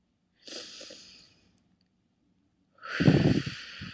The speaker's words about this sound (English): Take a deep breath.